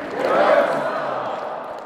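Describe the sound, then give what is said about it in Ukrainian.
Warm applause and cheering from the audience at a memorial evening for Yevhen Konovalets in Lithuania, greeting Ukrainian Azov fighters freed from captivity. A dense, loud wash of clapping and crowd noise holds steady throughout. “Мужніх українських бійців всі присутні гаряче вітали зливою оплесків.”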